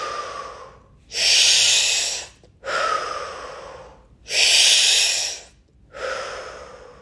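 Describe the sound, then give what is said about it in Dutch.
A person breathing in and out during a guided breathing exercise: four long, airy breath sounds that alternate louder and softer, forming two full in-and-out cycles with brief silences between them. “Adem in en uit. In, uit. In, uit. In en uit.”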